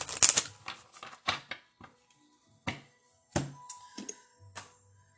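Oracle cards are shuffled and drawn, with a burst of riffling at the start and then scattered sharp taps and flicks separated by quiet gaps.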